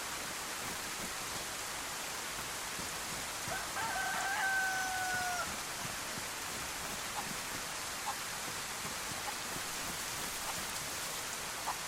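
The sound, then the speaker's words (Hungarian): A rooster crows once from a video game over steady, hissing rain that fills the whole clip. The crow is brief and rises only slightly above the constant downpour. “most akkor meg kell keresnem ezt a csirkét. Ami nyilván így az átkozott esőben egy picit nehezebb lesz.”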